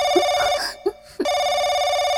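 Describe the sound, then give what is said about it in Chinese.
A telephone bell rings repeatedly with a loud, bright, sustained tone. There are two long bursts of ringing with a brief silent gap between them. “眼见铃声响了一遍又一遍”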